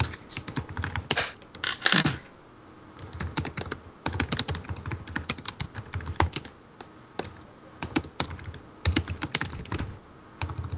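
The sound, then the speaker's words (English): Typing notes on a computer keyboard: many rapid keystrokes clatter in irregular bursts with short pauses between, crisp and alone with no talk. “Let me type some notes.”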